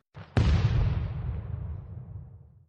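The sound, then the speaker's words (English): A robot's self-destruct explosion: a faint rumble, then a sudden sharp blast that swells into a heavy roar and fades away over about two seconds, alone with no voices. “The robot had pressed the self-destruct button, and before BeeBop knew what had happened, the robot blasted out of the arena, and so did BeeBop.”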